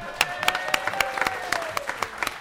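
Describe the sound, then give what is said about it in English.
A round of applause at a gathering of vintage trailer campers: a small group clapping in crisp, separate claps over a couple of seconds, fairly loud, with no voices. “So I think that just deserves a round of applause.”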